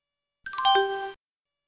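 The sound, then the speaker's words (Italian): A doorbell chime at a small thatched-roof cottage rings once, a short run of bright tones stepping downward and settling on a sustained lower note, heard alone with no talk. “suona la campanella.”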